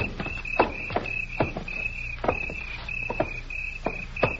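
Footsteps knock on a wooden walkway, many sharp, uneven hollow taps, while crickets chirp in a steady high trill throughout.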